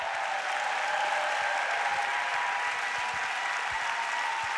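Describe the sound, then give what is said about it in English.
Dense, steady applause from an audience on its feet welcoming a visiting preacher to a church service, a continuous wash of many hands clapping for the whole stretch with no voices rising above it. “I want you to get on your feet, put your hands together, and let's welcome Brother Jim Reeve as he comes to preach for us today.”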